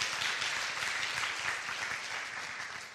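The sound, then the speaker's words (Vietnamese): An audience applauds a man to encourage him: dense, even clapping fills the whole stretch at a steady level, easing off slightly toward the end. “Nào, vỗ tay khích lệ anh ấy.”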